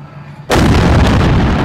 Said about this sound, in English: Nearby apartment buildings were evacuated, and the blast, as heard in this video from the Tallahassee Democrat, could be heard by residents living miles from the detonation site.